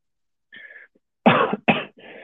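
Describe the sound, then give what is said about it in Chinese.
A person coughs from a lingering after-effect of COVID: a softer, throat-clearing cough, then a few harsh, forceful coughs in quick succession. “不好意思，最近那个我这个新冠后遗症有点严重，已经很久了，但是还是很就是咳的还是很厉害。”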